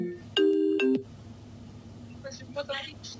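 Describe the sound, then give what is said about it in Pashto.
A phone ringtone sounds once as a bright, steady tonal burst of well under a second, followed by faint, indistinct voices. “دلته زنګ راغی”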